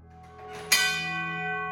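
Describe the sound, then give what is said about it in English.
A gong on a horse-drawn wagon is struck once, loud and metallic, over fainter ringing already present. Its bright, layered tones keep sustaining and slowly fade. “But you have to understand, that has a gong on it.”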